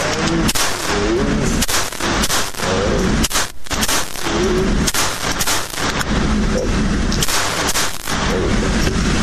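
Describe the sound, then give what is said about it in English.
Gunshots fired at a shooting target: many sharp, loud reports in quick succession, some close together in bursts, with little quiet between them. “Always works better when the safety is off.”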